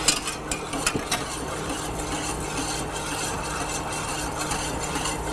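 Water poured into oil is stirred with a continuous rough, scraping swish. A few light taps come near the start, and the stirring runs steadily with no voices.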